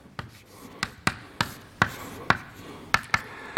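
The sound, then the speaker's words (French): Writing by hand during a physics lecture: a series of sharp taps and short scratchy strokes, irregularly spaced and crisp, with no talk over them. “Donc je vais écrire S plus sur S”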